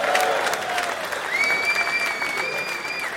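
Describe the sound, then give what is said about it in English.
Audience applause welcoming a sports show panel onto the stage: steady, even clapping from a crowd that holds at a moderate level throughout. “Please give it up for Geezer, Sean Kavanagh and Greg Garrity.”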